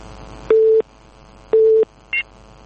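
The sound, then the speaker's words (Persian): A telephone busy signal follows a dropped call: two clear, evenly pitched beeps about a second apart, then a brief, higher-pitched blip. “آقای عبدالله از زابل تماس گرفتم قطع شد”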